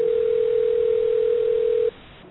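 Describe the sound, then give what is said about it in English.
A telephone dial tone sounds as one steady, unbroken tone at a constant pitch, then cuts off abruptly near the end, leaving quiet line hiss. “We're going to hear the dial tone at this point.”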